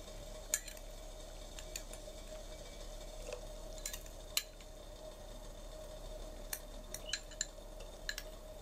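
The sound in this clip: Light metallic clinks and taps of a utensil stirring garlic in a pan, with many sharp, scattered ticks over a faint, steady background hiss; quiet throughout.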